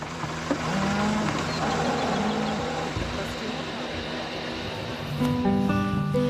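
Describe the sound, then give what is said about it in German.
Mother cows moo for their calves after leaving the milking parlour. A few drawn-out, tonal moos rise over a constant loud rumbling background. “Beim Verlassen des Melkstandes rufen die Mutterkühe gleich nach ihren Kälbern.”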